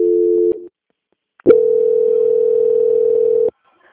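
Telephone line tones during a call transfer: a short steady tone, a brief silence, then a longer steady tone lasting about two seconds before cutting off, with no voices.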